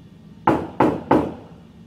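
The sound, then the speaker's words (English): Three sharp knocks on a door behind the person, loud and evenly spaced, each with a short decay, with quiet before and after. “Yeah, I'll knock on the door behind me.”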